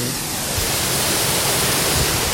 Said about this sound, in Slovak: Pod nami tečie hrmoce. Vieš, ako sa povie po poľsky vodopád? Nemám tušenie. Vodogrmoty. A naozaj hrmí.